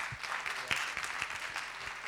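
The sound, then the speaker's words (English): A church audience gives a round of applause, a faint, light patter of many hands, with a few sharper single claps standing out. “Give him a round of applause, guys.”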